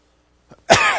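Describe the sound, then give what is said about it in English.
A cough bursts out loudly and harshly near the end, right after a faint, brief throat sound, with near silence before it. “By the way, I may cough a little bit, but that's the only time I'm going to apologize for it.”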